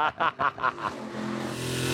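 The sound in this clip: Dodge pickup truck with a Viper engine revving: several short, punchy throttle blips in a row, then a sustained, steady roar that holds to the end.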